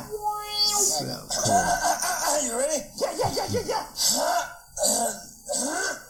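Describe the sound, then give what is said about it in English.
A voice clears its throat in an exaggerated, comic way, with several rough, gravelly rasps and grunts broken by short pauses, at moderate loudness. “That's a good comedy bit. The over clearing of the throat.”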